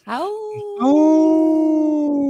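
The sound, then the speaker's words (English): Wolf howling: a smooth, sustained tonal howl rises quickly, then holds steady. A second, louder howl follows and runs to the end. Both are loud, with no talk over them. “we got a howl for our sacred wolves”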